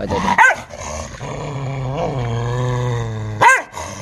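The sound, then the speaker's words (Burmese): A dog barks twice, with one sharp, loud bark near the start and another near the end. A drawn-out, tonal growling whine holds steadily between them. “အဲဟောင်းတာတစ်ချက်တော့ကြားလိုက်တယ်”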